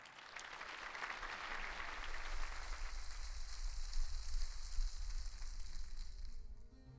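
Applause from an audience greeting a junior class coming onto a stage, a thick, hissing wash of many hands clapping that swells early, stays full and steady, then tapers off at the end.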